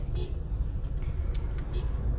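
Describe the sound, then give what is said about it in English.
A car driving on a road gives off a steady, low rumble with a constant hum of road and engine noise, even in level throughout. “hold on, sorry about the kind of weird pause there, there was a dog in the road. I'm driving and there was a dog in the road and I was not sure if I was gonna have to pull over”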